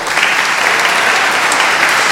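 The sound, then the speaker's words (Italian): Audience applause for child musicians, including a young guitarist and choir, and for altar servers: thick, continuous clapping from a crowd, loud and even from start to finish with no talk over it. “Quindi facciamo un applauso”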